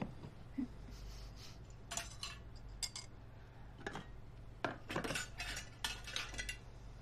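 Plates and cutlery clinking: many faint, sharp metallic and ceramic clicks and taps scattered irregularly over a low steady hum, with no voices.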